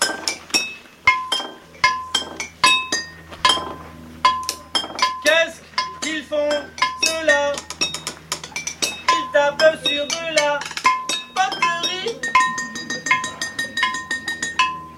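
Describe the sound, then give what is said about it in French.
Two percussionists beat on a village potter's discarded, failed pottery pieces at a festival, striking many sharp, bright clinks and chinks. Ringing ceramic hits come in a dense, steady rhythm throughout, loud and without speech. “deux percussionnistes que le potier du village de Blano avait visiblement chargé d'en finir une fois pour toutes avec ses rebuts, avec ses pièces ratées.”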